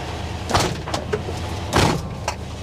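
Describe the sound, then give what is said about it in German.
Engine of an old Volkswagen bus, some 50 years old, driving off: a low, steady rumble with two louder rattling swells, fairly faint throughout. “Siehst du, auf Volkswagen ist Verlass, sogar nach 50 Jahren. Der fährt noch. Ich fahr mal raus.”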